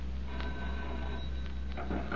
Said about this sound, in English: Matthew Kent, multimillionaire manufacturer, receives a mysterious telephone call in his New York office.